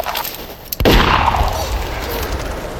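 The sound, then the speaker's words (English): A single sharp gunshot as a sheriff shoots a woman outdoors in the snow: one loud crack followed by a long, rumbling decay that fades slowly. “He shot her without even turning to look at her.”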